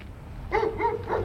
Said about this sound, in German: Mein Hund ist da.